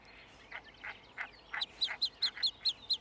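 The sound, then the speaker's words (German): Newly hatched, downy chicks calling to their nearby mother: a rapid series of many high, thin peeps that become louder and more sharply clipped toward the end, with nothing else heard. “Die Mutter ist in der Nähe geblieben. Sie kann die Rufe ihrer Jungen deutlich hören.”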